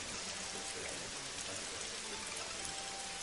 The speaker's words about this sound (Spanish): abre la puerta del bar y ve la lluvia.